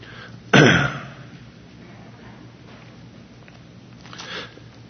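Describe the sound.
A man reading scripture aloud clears his throat because something is caught in it: one loud, harsh burst, then low steady background hum and quiet.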